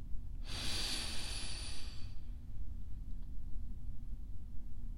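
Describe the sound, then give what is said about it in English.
A single deep inhale during a guided breathing exercise, breathing in for a count of five. It sounds as about a second and a half of airy hiss over a steady low background hum. “Breathe in for 5.”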